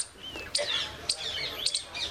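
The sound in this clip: A pet bird chirps in a few short, high, faint tweets that repeat in a loose rhythm.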